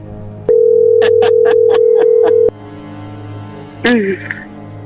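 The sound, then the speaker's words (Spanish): Telephone being dialed: a steady dial tone with six short keypad beeps layered over it, then a quieter stretch, then a brief warbling tone. “a ver, permíteme, se está marcando de nuevo.”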